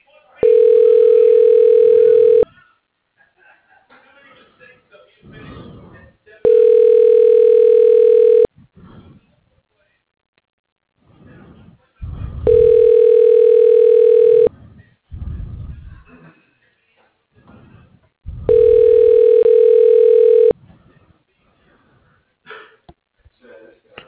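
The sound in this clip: Telephone ringback tone on a call to an office extension: four long, steady, humming tones of about two seconds each, separated by longer pauses that hold faint breathing.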